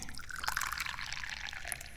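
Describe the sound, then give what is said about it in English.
Tea pours into a cup in a faint, continuous liquid trickle with soft splashing that holds steady for about two seconds, with no talk. “And to celebrate that fact, I think I'm going to pour some tea.”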